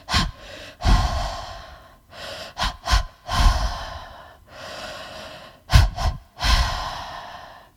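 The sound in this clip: Deep three-part breathing through the mouth: an inhale into the belly, then into the lungs, then an exhale. A few cycles of quick, sharp gasping intakes alternate with long, loud, airy breaths. No talking.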